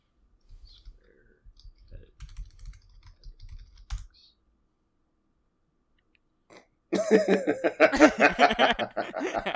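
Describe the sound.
Typing on a computer keyboard: a few seconds of light, irregular clicking, then a pause, then people laughing and talking loudly.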